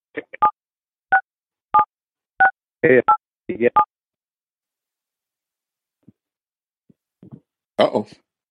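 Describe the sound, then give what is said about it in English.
Telephone touch-tone dialing: a quick series of short, clean electronic beeps, evenly spaced, followed after a pause by a brief burst of voice at the end. “I heard some, sounded like some dialing, but I think we're good.”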